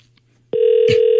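A telephone tone sounds on a call placed to a landline: after a moment of near silence, a single steady, loud, mid-pitched tone starts abruptly and holds to the end.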